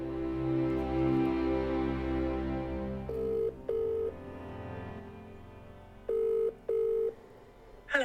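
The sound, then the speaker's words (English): Ringing tone of an outgoing WhatsApp call: two pairs of short, steady beeps as music fades out at the start, ending with a brief rising chirp. “Let's get her on WhatsApp.”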